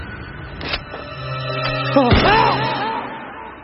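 Revolver gunshot in an audio drama, a single sharp bang near the middle with a falling, whining tail, set against a sustained tonal background.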